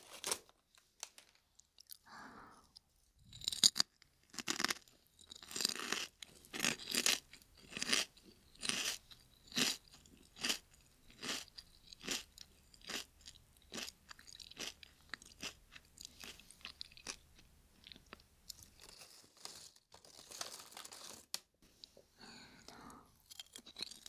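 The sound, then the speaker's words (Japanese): Lightly salted potato chips are chewed, many crisp crunches in a steady rhythmic run, fairly quiet with soft pauses between bursts. “しょっぱいのちょっと欲しかったから。やっぱりポテチ薄塩だよね。”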